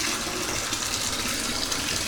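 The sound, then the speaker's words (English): Water gushes steadily from a tap into a filling bathtub, a dense, even rushing hiss that stays loud and unbroken throughout, with no talk over it. “better get into the bathtub. So here I am, adjusting the water as I speak.”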